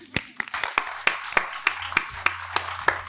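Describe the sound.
Sparse handclaps from a small audience at an Estonian-language talk: a steady series of separate, sharp claps at a roughly even pace, with no crowd roar between them.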